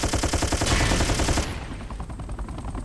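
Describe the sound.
Rapid machine gun fire rattles in dense, fast bursts that stay loud for about a second and a half, then thin into quieter, scattered shots.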